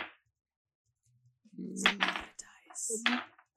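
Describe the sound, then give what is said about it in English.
Many dice rolling together during a tabletop game: short bursts of hard, rattling clatter after a near-silent start, with voices mixed in. “That's a lot of dice. Sounds.”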